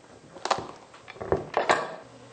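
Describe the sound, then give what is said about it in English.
A sharp knife working into a hard, raw pumpkin makes a few irregular crunchy thuds and scraping cracks, moderately loud and clustered toward the second half. “You just make a little hole in the pumpkin with the point of your knife to get it started. It's fairly hard to cut, so you'll need a good sharp knife.”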